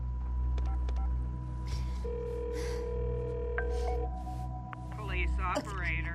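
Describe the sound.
Touch-tone dialing on a landline phone: several short electronic beeps and one longer held tone over a low hum, followed by a brief breath or voice near the end.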